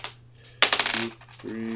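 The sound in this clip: A large handful of dice rolled during a tabletop war game gives a short, sharp rattling clatter that quickly dies away, with voices briefly heard after it.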